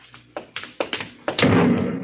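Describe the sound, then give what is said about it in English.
A radio-drama sound effect of an explosion on a ship: a few separate dull thuds and knocks, then a loud sustained rumbling burst that holds steady to the end. “What? That came from the ship. Another flare? No, that was an explosion.”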